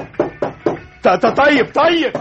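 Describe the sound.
Knocking on a door: a few quick, sharp raps, followed by a man speaking.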